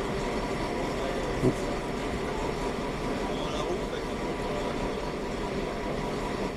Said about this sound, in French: Il trouve sa place près de la fenêtre, en hauteur. Le wagon se remplit.